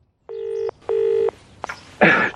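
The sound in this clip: Telephone number being dialed: two steady keypad tones in quick succession, each under half a second, followed by a sharp click and a short burst of noise.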